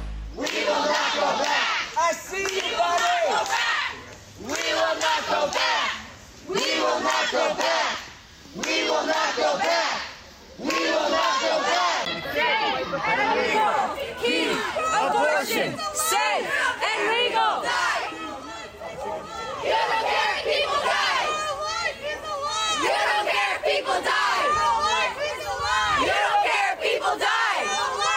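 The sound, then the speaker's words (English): Protesters chant loudly outside the homes of Supreme Court justices. Massed voices repeat a rhythmic chant, broken early by a few short pauses, then run into a long, unbroken stretch of crowd chanting and yelling. “So what you're hearing there are the sounds of activists for now. What we should be calling them is alleged criminals that are out there protesting outside of the homes of Supreme Court justices.”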